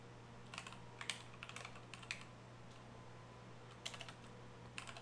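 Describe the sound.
Fingers type on a computer keyboard while someone looks up a football team's offensive line roster, producing faint scattered clicks in short bursts separated by pauses, over a low steady hum.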